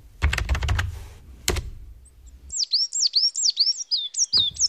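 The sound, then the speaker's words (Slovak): A great tit sings a run of many quick, high, repeated two-note phrases that come clearly and evenly over the last half. Before the song starts, there is dry clattering and knocking. “Počuješ to, činčirin? To je síkorka. Keď takto spieva, o 2 týždne príde jar.”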